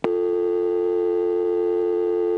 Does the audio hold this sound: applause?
no